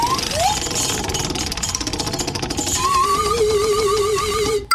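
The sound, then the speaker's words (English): Prize wheel spinning, with loud, rapid, continuous ticking as its pointer flicks past the pegs and a wavering tone above it. The ticking runs throughout and then cuts off abruptly. “But it's time for me to spin the wheel of destiny and find out what my next punishment is going to be.”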